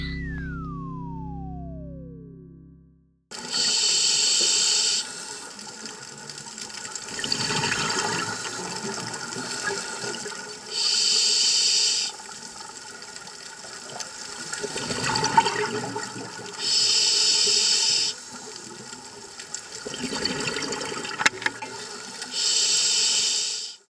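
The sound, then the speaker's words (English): Scuba diver breathing underwater through a self-contained breathing apparatus: loud hissing inhalations alternate with rumbling, bubbling exhalations in a slow, steady cycle that repeats several times. “that is what it sounds like to breathe under the sea. Using scuba, or self-contained underwater breathing apparatus.”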